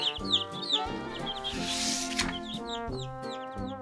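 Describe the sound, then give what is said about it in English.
Hens cluck around newly hatched chicks, and many high, quick peeps repeat over lower, throaty clucking throughout. “Ten eggs did hatch. They had 10 chicks.”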